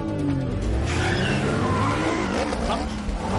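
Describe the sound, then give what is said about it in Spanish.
A red Audi drives into a car park with a dense, steady roar of engine and tire noise, including squealing, holding an even loudness throughout. “El Audi entra en el aparcamiento. Las motos lo siguen.”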